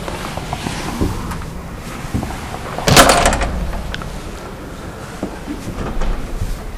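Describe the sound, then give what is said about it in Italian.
A window is shut during a lecture: one sharp, loud sliding clunk near the middle, then a few fainter knocks and rattles over a quiet background. “Scusate che chiudo sta finestra che scoccia.”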